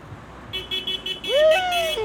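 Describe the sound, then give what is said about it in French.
Car horns honking at the entrance of a performance hall in Calais: sustained toots begin after a brief quiet start and continue to the end, with shifting tones over a bed of road noise. “vous vous appuyez sur le klaxon, c'est pas dur!”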